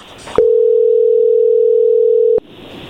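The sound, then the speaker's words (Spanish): A ringing tone on an outgoing phone call to Colombia sounds as one steady, loud, mid-pitched tone lasting about two seconds, clean and alone, before it cuts off abruptly. “Vamos a llamarle a Colombia”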